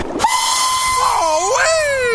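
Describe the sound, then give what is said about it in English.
A toy train whistle blows a loud, sustained tone that dips and wavers in pitch midway, then rises and glides steadily downward to the end. “Wonder if I can pump up this toy train.”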